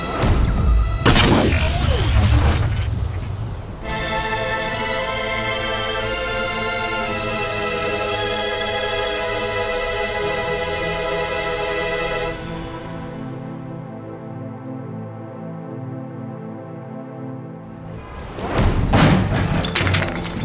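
A sci-fi nullifier grenade blast and zapping effect: a loud crashing burst gives way to a long, steady electronic humming drone. The drone thins and fades, then a second loud, harsh burst ends the sequence.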